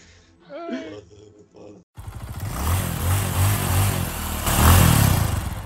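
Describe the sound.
Motocross motorcycle revving indoors in a kitchen; after brief voices at the start, the loud engine roars in repeated rising and falling revs to the end.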